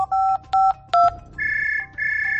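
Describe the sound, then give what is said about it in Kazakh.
Telephone keypad tones as a number is dialed: three short electronic beeps in quick succession, then two longer, higher steady tones. “Телефоннан эзләп тапты һәм кемнеңдер номерын җыйды.”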